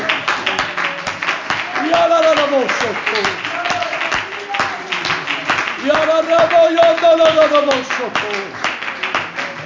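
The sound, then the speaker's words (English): An audience claps hands in worship at a Sunday morning church service. Quick, steady claps run throughout, with voices singing and calling out over them. “Let's clap our hands and worship Him”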